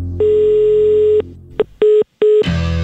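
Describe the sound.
Telephone line tones sound while a call is redialed: a long steady mid-pitched tone, a brief blip, then two shorter tones separated by silence, before the line opens into noise.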